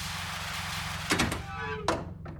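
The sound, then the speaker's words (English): A spacecraft hatch opens over a low, steady hum, marked by a heavy mechanical thunk, then a second clunk and a fainter final knock. “All right, I guess that's good enough. I'm going to open the hatch now.”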